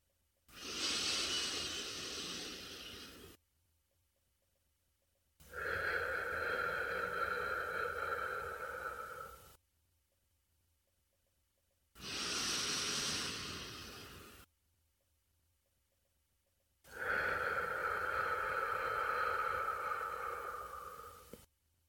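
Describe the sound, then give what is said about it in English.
Slow deep breathing, in through the nose and out through the mouth, in two full cycles. Long airy inhales alternate with longer, breathier exhales, each breath separated by a silent pause. No talking. “we're going to take 3 deep breaths together. Deep breath in through your nostrils, if you can, and out through your mouth. Let's breathe together.”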